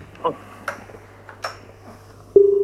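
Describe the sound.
Telephone line ringing as a listener's call comes in: a steady, slightly pulsing ring tone starts near the end, after a few brief soft clicks and taps.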